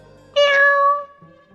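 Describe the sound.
A black cat meows once on a boat, a single loud, drawn-out cry with a steady pitch, heard alone.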